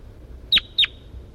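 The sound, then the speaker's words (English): A bird gives two short, high chirps in quick succession, clear and alone over a faint, quiet background. “That's Bird 4-3,”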